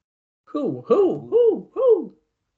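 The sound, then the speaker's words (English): A person imitates an owl with four drawn-out hoots, each voiced and arching up then down in pitch, evenly spaced and fairly loud with no other sound around them. “Woo! Woo hoo! What are you, an owl?”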